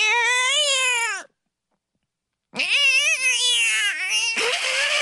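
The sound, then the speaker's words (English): A person imitates a cat meowing with two long, loud, wavering meows separated by a silent gap. The second call breaks into a breathy rasp at its end. “That was my cat sound effect. It was pretty good. I've been working on it.”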